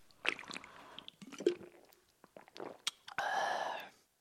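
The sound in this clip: Someone drinks a Norrlands Ljus non-alcoholic organic beer: a series of wet gulps and sloshing swallows, faint and irregular, ending in one longer sustained sound.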